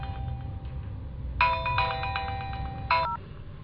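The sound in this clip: A telephone rings with an electronic ringtone: short clusters of bright, high tonal beeps repeat a few times over a low, steady background hum.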